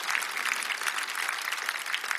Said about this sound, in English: that deserves a round of applause